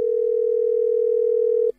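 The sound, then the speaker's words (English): Telephone dial tone as a phone call is placed: a single steady pitched tone held at constant loudness for under two seconds, then cut off abruptly. “It is time to make that first call.”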